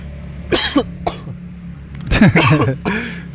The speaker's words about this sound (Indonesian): terlalu semangat sampai kayaknya batuk-batuk keselak deh